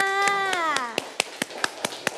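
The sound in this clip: Children clapping for their classmates during a lesson, with pupils joining both remotely and in person. The claps are steady and evenly spaced, fairly loud, and begin after a short stretch of voice at the start.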